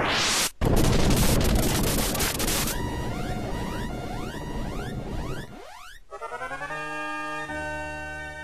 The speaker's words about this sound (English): Oh hey, I do have a bottle rocket, never mind.